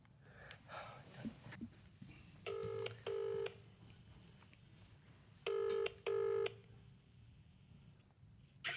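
Telephone keypad tones as a number is dialed to call someone back: four short electronic beeps arriving in two quick pairs, over a steady low background hiss.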